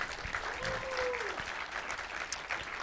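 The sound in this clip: A live audience applauding the sponsor Manscaped: fairly soft, steady clapping throughout, with a brief voice-like tone that rises and falls early on.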